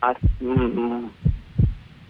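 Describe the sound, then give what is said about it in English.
Heartbeat-like low thumps heard over a phone line, a few dull irregular pulses with a voice talking between and over them. “Yeah, well, we can hear your heart beating.”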